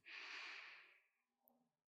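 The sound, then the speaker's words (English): A single deep breath drawn in during a guided relaxation exercise, a soft, breathy hiss that swells quickly, holds, then fades out, followed by a few faint low sounds. “I'm going to have you take a couple deep breaths in, inhaling in”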